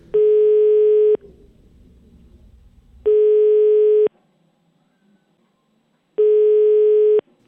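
Ringback tone of an outgoing telephone call: three steady, clear beeps of about one second each, all at the same mid pitch. They are loud and alone, separated by roughly two-second gaps of near silence.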